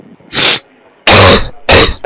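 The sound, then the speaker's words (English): Harsh coughing bursts: three loud, rough coughs, the first a little apart and the last two close together, with no talk between them. “It's given me quite a cough.”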